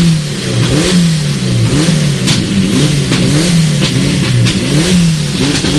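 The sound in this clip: A Peugeot 207 rally car's engine revs loudly at the start of a rally stage, its pitch swelling and dipping in repeated cycles over a steady, continuous drone, with no voices.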